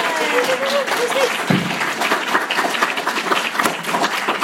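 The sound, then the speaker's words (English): Audience round of applause for the players of a live tabletop adventure game show, a sustained dense clapping with a voice briefly audible at the start. “Please, round of applause for our adventurers!”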